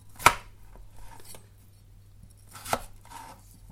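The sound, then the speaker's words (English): A knife quartering peeled potatoes: two sharp, crisp chops through the flesh stand out, with a few fainter taps and cuts between them. “What I'm going to do is just quarter them.”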